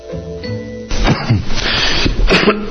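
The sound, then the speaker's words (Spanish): Coughing caught on an open microphone: a few rough, noisy bursts of uneven loudness that cut in abruptly after a short tonal musical passage. “me abriste el micrófono en plena tos”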